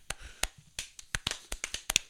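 Scattered hand claps from a few people on a show, a series of sharp, uneven slaps at irregular intervals, loose and out of sync.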